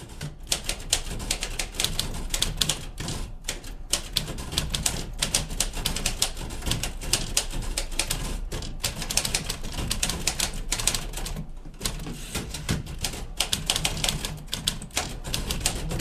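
Clacking of two non-electric manual typewriters typed on at once, many sharp keystrikes in a fast, irregular, continuous rhythm broken by a few brief pauses, with no voices.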